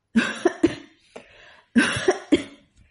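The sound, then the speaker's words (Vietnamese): Violent dry coughing comes in two harsh fits of three sharp coughs each, separated by a short gap with a faint breath between them. “Ngay sau đó, ho khan một trận kịch liệt.”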